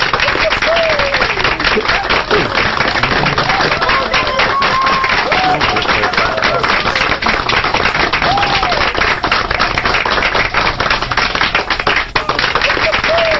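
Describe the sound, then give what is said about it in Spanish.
Applause from a crowd on a K-pop radio show, a dense, steady clatter of many hands lasting the whole stretch, with voices rising over the clapping at times. “basta de aplausos”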